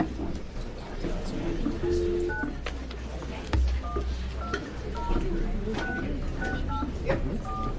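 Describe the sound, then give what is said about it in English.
Touch-tone telephone dialing tones sound while a caller in Seattle is being dialed. Many short beeps come in an irregular string under ongoing room noise as people talk. “Can I dial in this guy from Seattle now?”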